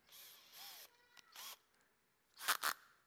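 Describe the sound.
Several short rasping, clicking bursts as the bit is swapped out on a power drill, mechanical and fairly faint, ending with two sharper, louder snaps.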